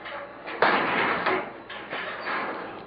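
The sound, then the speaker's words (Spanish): A prison cell door is opened: a sudden rough clank gives way to grinding, scraping noise that swells and fades in a few uneven bursts. “Miren, están abriendo la celda donde estabas tú”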